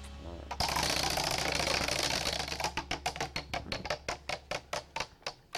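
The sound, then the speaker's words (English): A prize wheel spins, first with a rushing whir, then breaks into a rapid run of sharp, evenly spaced clicks that gradually slow as it comes to rest. “Let's spin the wheel and see who it lands on this week.”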